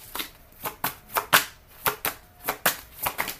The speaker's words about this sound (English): May I have three cards, please? Thank you. May I have some more cards,